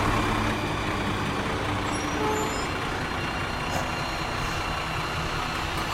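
A garbage truck drives past with a steady, heavy engine rumble and broad road noise, loud and unbroken throughout, with no voices.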